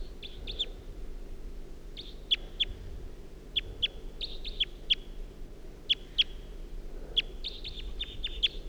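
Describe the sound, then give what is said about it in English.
A wild bird calls in a series of short, sharp, high chirps, often in quick pairs. The chirps repeat many times over a low, steady rumble, with no voices. “Wild bird's flying away now.”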